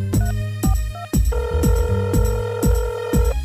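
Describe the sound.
A telephone rings as a call is dialed, with repeated electronic ring pulses in a regular rhythm, joined midway by a sustained tone. No one speaks.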